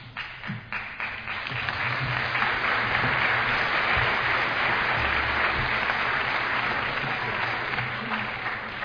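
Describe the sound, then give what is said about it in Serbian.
Audience applause at a church cultural evening after an address to a bishop: dense, sustained clapping from many hands that swells within the first two seconds and holds steady and loud to the end. “Ja bih molio da ne pljeskate”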